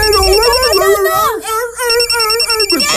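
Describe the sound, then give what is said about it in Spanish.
Telephone ringtone, a repeating high electronic tone pulsing in short bursts, largely buried under loud, animated voices talking over it. “¿Qué es eso? Una llamada telefónica. ¿Contestamos?”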